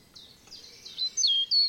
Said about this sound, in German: Es riecht nach Wald, die Vögel singen ihr Lied, über den Köpfen rauschen die Blätter der alten Buchen und Linden.